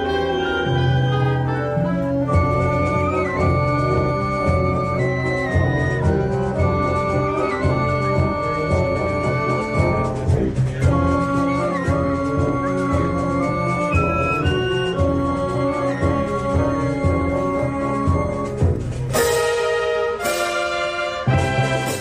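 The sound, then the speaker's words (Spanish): A band plays a Moorish festival march, a prize-winning festive composition, with full sustained brass-led harmonies moving steadily and loudly, and bright cymbal crashes near the end. “Así suena Al-Falik, la obra ganadora del concurso de composición de música festera Villa de Benidorm,”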